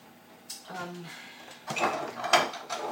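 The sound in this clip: Clatter of clean dishes and dog bowls being handled and put away in a kitchen, with a few knocks and scrapes of crockery and a drawer or cupboard sound, moderately loud and uneven.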